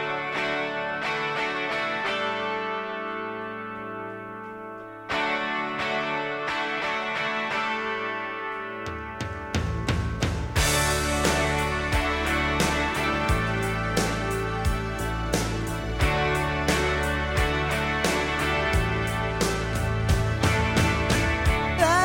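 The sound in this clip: The opening of a late-1980s pop rock song plays with sustained, ringing tones and a short break before the full band enters around the midpoint. A steady, punchy beat and layered instruments then carry on to the end.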